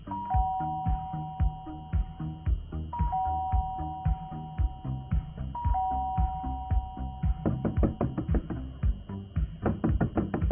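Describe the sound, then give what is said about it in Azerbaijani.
A doorbell rung at a door rings repeatedly, giving three clear two-note chimes at regular intervals over steady rhythmic thumping that grows busier toward the end. “Lənətə gəlmiş bu qapını nə üçün açmırsan? Başım işə qalıdı, bağışla. Yəni mən yarım saat qapıda bunda qalım gərək. Qapını çaldığını eşitmədim.”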